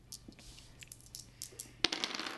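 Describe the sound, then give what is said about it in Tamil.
Dice for a traditional Tamil thayam board game are rolled. They land with one sharp click followed by a few faint rattling taps, quiet and alone. “கொண்டாங்க தாயகட்டே உருட்டுவோம். உருட்டு உருட்டு”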